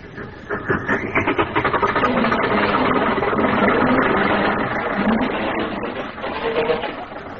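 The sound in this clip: A car engine runs as the car pulls away after its emergency brake is released. The loud, continuous chugging rumble holds steady for several seconds and eases slightly near the end, with no talk over it.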